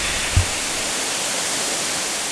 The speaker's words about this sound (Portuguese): Cachoeira do Baú, 35 metros de queda livre.